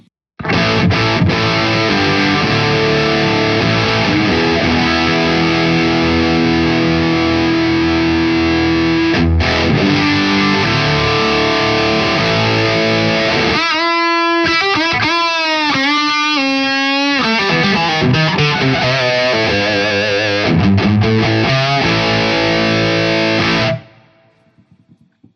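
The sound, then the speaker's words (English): Electric guitar played through a stock DS1 distortion pedal with the gain all the way up and a new tone control. Loud, saturated chords sustain throughout, with a stretch of bent single notes in the middle, before the sound cuts off near the end. “let's turn the gain all the way up because we have the gain up on this. Gain all the way up on the stock DS1. Now, through the new tone control.”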